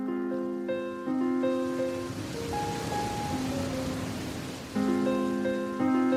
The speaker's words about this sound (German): Es regnet.